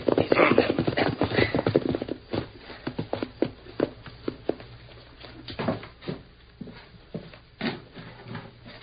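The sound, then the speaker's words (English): Horses ridden toward a house clip-clop in an uneven patter of hoofbeats, busier and louder at first, then sparser and lighter. “There's a horse hitched out in front. We ride to back of house, Dan. Maybe not be seen.”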